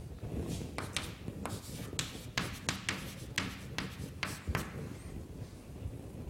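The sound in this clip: Handwriting as equations are written out: many short scratchy pen strokes in an uneven rhythm, some sharper than others, over a faint low background rumble.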